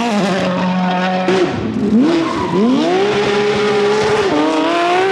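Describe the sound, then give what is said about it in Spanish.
A car engine runs loudly on its own, its whining tone stepping up, dipping and climbing again, then holding high with a slight drop near the end. “escuchando el sonido del motor”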